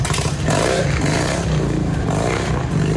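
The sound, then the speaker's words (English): A loud Harley-Davidson motorcycle passes near the junction of highways 101 and 154 in Santa Barbara, California, a continuous throaty engine roar with heavy low rumble and rough clatter filling the whole stretch, with no talk over it. “And you can hear a loud Harley in the background.”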